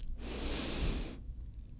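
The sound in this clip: A single deep inhalation during a guided breathing exercise, a loud, airy rush of breath lasting about one second before falling to quiet.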